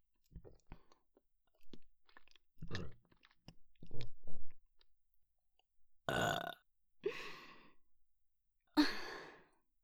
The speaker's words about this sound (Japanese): 炭酸なんかのゲップでいいの？